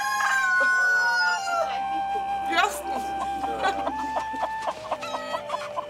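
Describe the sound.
Chickens clucking while two ten-month-old young roosters crow in a chicken yard, with a few drawn-out, strained crows of uneven pitch rising over the hens' steady clucks.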